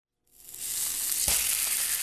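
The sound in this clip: Salmon seasoned with salt and pepper sizzles in a pan. The hissing crackle swells quickly from silence into a loud, steady fry, with one brief knock partway through.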